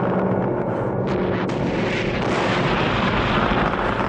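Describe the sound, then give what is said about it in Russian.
Celebratory salute salvos fire in the sky over a wartime victory celebration, with tank crews being greeted. The sound is a dense, continuous booming roar, with a couple of sharper cracks early on. “В небе залпы салюта.”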